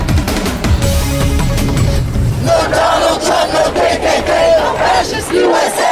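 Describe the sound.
A crowd of protesters shouts and chants at a loud protest against deportation plans, a dense, continuous roar of many voices that surges and swells in rhythmic waves throughout.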